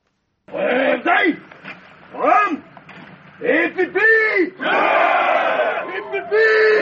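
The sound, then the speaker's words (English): Some 400 Cameroon gendarmes sing together as they arrive in Bamenda from the capital, many voices chanting in loud bursts that swell and break off, then carry on almost without pause to the end. “This is the sound of 400 Cameroon gendarmes singing as they arrive in Bamenda from the capital Yaoundé”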